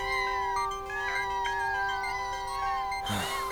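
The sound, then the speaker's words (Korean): Kittens meowing outside a door: several thin, high-pitched meows overlap and waver steadily, with no talking. “뭐야, 이 문 밖에 있는 고양이들은? 너 가족이 있었던 거냐?”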